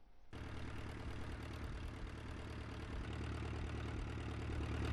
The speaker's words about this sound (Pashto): دا سپی چې کله هم د ورتلونکو کښتو د انجنونو آواز واوري نو دې ته ورغونډېدل شروع شي.